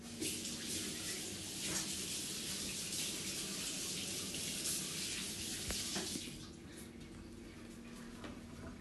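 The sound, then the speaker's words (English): Water runs from a tap while someone washes their hands, a faint, steady hiss of flowing water that drops somewhat quieter near the end. “So I'll just wash my hands first.”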